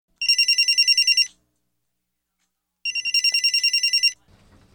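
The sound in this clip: A telephone ringing when calling a friend on the MTN network: two bursts of rapid, high, buzzing trills with a silent gap between them, then a faint low sound at the very end.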